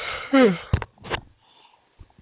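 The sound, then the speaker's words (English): A person's yawn: a brief voiced sigh that falls in pitch, followed by soft breathy exhales and faint mouth sounds, fairly quiet. “Have I bored you to yawning?”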